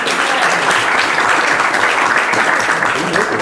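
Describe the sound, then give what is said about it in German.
An audience at a training session in Stuttgart gives a round of applause: loud, dense, continuous clapping that stays steady throughout the few seconds. “Dann nochmal ein Beifall für die Petra.”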